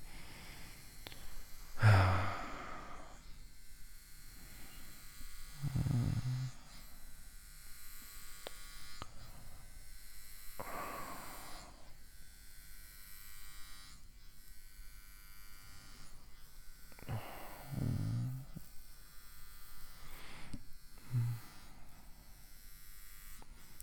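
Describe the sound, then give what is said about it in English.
An electric shaver shaves hair with a steady, thin, faint buzz throughout, broken by several soft breaths or sighs at intervals. “You can shave everything.”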